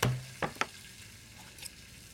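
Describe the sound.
Steak being tenderized in a kitchen: a few sharp, brief knocks spaced apart over a faint, steady hiss.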